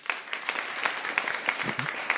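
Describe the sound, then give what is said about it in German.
Applause from a German studio audience rating whether a question deserves 100 likes: moderately quiet, with distinct scattered claps keeping a loose, brief rhythm. “ob diese Frage 100 Likes wert ist. Euer Applaus.”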